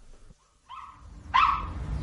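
A dog barks twice at a door, two short barks with the second louder and sharper, over a low background rumble.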